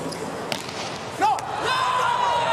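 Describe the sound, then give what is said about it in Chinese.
A volleyball serve in a match involving the US team, heard as one sharp, solid hit over continuous crowd noise that grows louder just afterward. “三号副攻阿弗利尔，阿弗利尔发球，”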